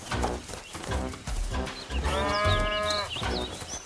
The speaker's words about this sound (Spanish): Por supuesto, el ternero se asustó al principio. No entendía que lo llevábamos con su madre.